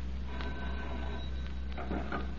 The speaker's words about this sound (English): Matthew Kent, multimillionaire manufacturer, receives a mysterious telephone call in his New York office